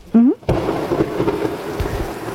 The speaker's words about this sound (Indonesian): Ya hujan. Aku boleh neduh di sini dulu nggak?